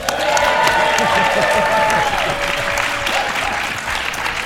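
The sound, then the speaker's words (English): A conference audience at the U.S.-China Business Council's Forecast 2019 event in Washington, D.C. bursts into loud, sustained applause and cheering, a dense, even clatter of clapping throughout. “Let's hear this gathering of worthies make a little unseemly and undignified noise.”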